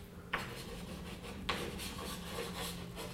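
Writing on a board during a lecture: scratchy, rasping strokes rub along steadily, with two sharper onsets marking new strokes and no voices over them.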